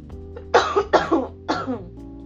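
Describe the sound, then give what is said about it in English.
A person with COVID coughs in a few sharp, harsh bursts close together, loud against a quiet background with a faint low hum. “So I'm about to cough. Give me a minute.”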